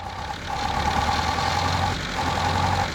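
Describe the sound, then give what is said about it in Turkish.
Four-cylinder engine idling after its air filter was refitted, a steady, loud mechanical hum and rumble with a slight, uneven pulsing. No other sounds are heard. “İşte çalıştı. Sesi de güzel. 4 silindirden ikisi yalnızca ara sıra çalışıyor. Sanırım artık 4'ü de çalışıyor.”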